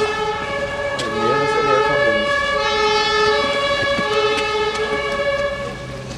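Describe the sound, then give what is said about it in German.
An emergency doctor's vehicle siren with its special signal on sounds as a loud, steady, continuous tone that holds through the whole stretch, wavering slightly near the start and easing off at the end. “Hat ja Sondersignal an.”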